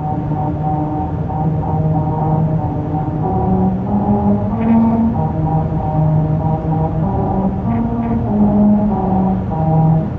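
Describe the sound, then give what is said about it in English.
A car drives over grooves cut into a highway in Lancaster, California, for a Honda promotion. The tires make a slow melody of humming, sustained tones that ring out over a steady rumble of road noise. “That's the sound of a musical stretch of highway in Lancaster, California. As part of a promotion for Honda, special grooves were cut into the pavement that cause these notes to ring out as you drive over them.”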